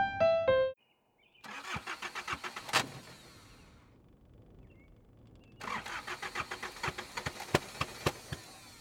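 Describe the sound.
An old 1985 Mercedes E-Class car engine cranks but fails to start: two bouts of rapid, rhythmic starter churning separated by a quiet pause, the second run longer, with no engine catching.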